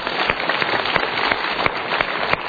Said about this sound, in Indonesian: Tepuk tangan untuk pilihan Anda.